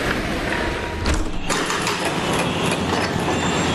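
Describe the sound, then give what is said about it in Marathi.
Rush-hour traffic and metro line construction at 5 pm pour through an open window as a loud, unbroken roar of engines with mechanical rattling and clatter woven through it. “आपण संध्याकाळी 5 वाजता पूर्ण traffic असताना, सोबतच metro लाईनचे काम सुरू असताना युटिलिटी विंडोजचं प्रात्यक्षिक बघूया। आणि आता मी ही विंडो उघडतो।”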